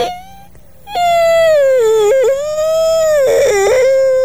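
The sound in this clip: A voice fakes crying with a loud, sustained, high whimpering wail whose pitch wavers and dips, broken by a couple of brief catches.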